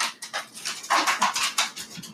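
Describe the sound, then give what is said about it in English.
A dog and a cat fight, heard as a quick, fairly loud run of short, strained dog yelps, whimpers and panting bursts with no talk. “That's the dog and the cat fighting in the background.”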